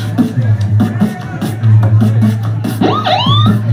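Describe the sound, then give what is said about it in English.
A beatboxer imitates a siren with the mouth. A rhythmic beatbox pulse runs steadily, then loud wailing tonal sweeps rise and fall near the end over a constant low hum. “That's the siren from the mouth.”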